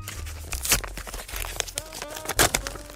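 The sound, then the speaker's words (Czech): A paper envelope being opened: a few sharp tearing rips mixed with crinkling paper, loud and uneven, with no talk. “Mám tady obálku.”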